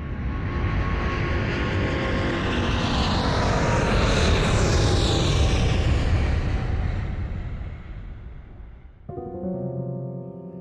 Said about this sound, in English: Flight 613 with service to Hollywood is ready to depart, so please fasten your seatbelt.